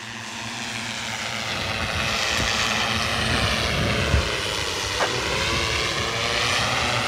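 An autonomous search-and-rescue drone flies overhead during a system test, its motors and propellers making a steady, loud whirring drone that swells slightly and holds without pause; no voices.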